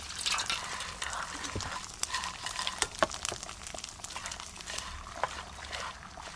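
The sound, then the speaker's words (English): Rice is stirred in a pan while stock is added a little at a time, giving a faint wet sizzle with soft scrapes and irregular little clicks and drips. “Add the liquid a little at a time. Keep stirring and gradually add more stock until the rice is cooked.”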